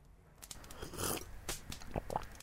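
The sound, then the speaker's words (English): A faint sip of decaf cappuccino: a few short, soft slurping bursts of mouth noise, spaced unevenly and growing slightly sharper toward the end. “I had to take a sip of my decaf cappuccino.”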